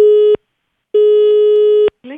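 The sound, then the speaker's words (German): A telephone line tone sounds as two people are called at the same time: two long, steady beeps at one pitch separated by a pause, then a brief voice. “habe eine Frau Winter aus dem Telefonbuch rausgesucht, habe die beiden gleichzeitig angerufen und mal geschaut, was passiert, wenn man sie alleine lässt.”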